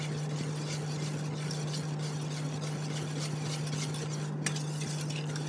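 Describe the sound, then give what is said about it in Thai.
Stirring a gel mixture after adding oil with melted wax: a continuous soft swishing and scraping texture over a steady low hum, with one brief click near the end and no talk. “ค่อยๆคนไปเรื่อยๆนะคะ ใช่ค่ะ เห็นว่าเจลก็จะเริ่มขึ้นขาวเนาะทีแรกเป็นเนื้อเจลแต่พอเอาส่วนของน้ำมันที่มีแว็กละลายอยู่ลงไปแล้วนะคะ”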